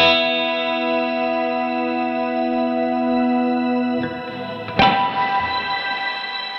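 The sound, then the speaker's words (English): Strymon Caverns pedal reverb and delay on a sustained harmonic chord: a rich, shimmering drone holds steady, then fresh attacks near the end bloom into washed, echoing tails. “Here's what the Caverns one sounds like.”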